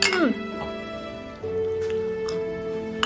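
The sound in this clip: Glasses clinking together in a family toast over drinks, a few brief, bright clinks scattered over a steady, sustained tonal background.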